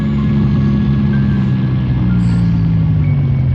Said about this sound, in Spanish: Farak detiene el camión.